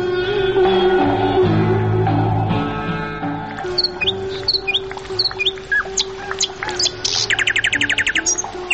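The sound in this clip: Birds sing in a steady stream of high chirps and quick trills that grow busier and denser toward the end, with a low, sustained tonal hum running beneath the calls.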